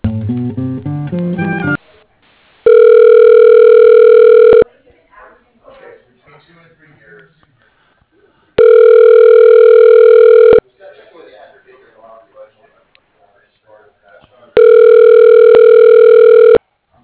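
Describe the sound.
Ringback tone on a telephone line while a call is transferred to voicemail: three long, steady buzzing rings of about two seconds each, separated by equal pauses that carry only faint background sound.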